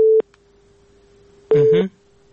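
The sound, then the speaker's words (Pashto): Telephone busy tone sounding after a dropped call connection, a steady low electronic hum running throughout, louder in a short burst at the start and again where a brief voice cuts in over it. “اړیکې وشلې ده فکر کوم”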